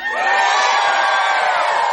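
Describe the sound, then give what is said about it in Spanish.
Audience shouting in a theatre, the Teatro Auditorium in Mar del Plata: a loud, sustained roar of many voices yelling together, steady and unbroken throughout. “Sí. Qué extraordinario. Qué fantástico. Bueno, hay también gente que grita. También. Del siguiente modo.”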